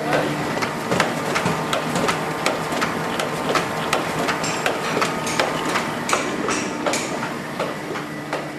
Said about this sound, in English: The plates are loaded and the newsprint is tightened and adjusted before the presses start to roll.